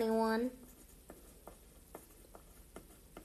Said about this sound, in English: Sorry about the whole long. I'm writing stuff down.